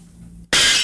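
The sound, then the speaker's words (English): Cheap panes of glass shatter in a sudden, loud, bright crash that bursts in after a quiet, low hum and rings on to the end. “When I get there, I try shattering some cheap panes of glass.”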